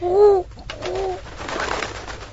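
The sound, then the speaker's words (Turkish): Turtle dove cooing: two low, hollow coos come in quick succession, the first louder, followed by a softer, noisy rushing stretch as the bird leaves. “Bu kumru ne biçim bir hükümdar ki derdimize çare bulamadan uçup gitti.”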